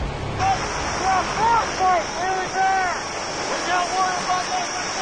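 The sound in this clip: Strong polar wind in extreme cold, about minus 51 with a wind chill near minus 92, strong enough to shake a ladder. Howling whistles rise and fall over a steady broad rush, in several swelling gusts.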